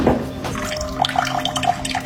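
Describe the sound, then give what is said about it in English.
Cold water runs from a kitchen faucet in a steady, splashing rush, with brief bright plinks and gurgles of water scattered through the stream. “It's my cold water pressure in the kitchen.”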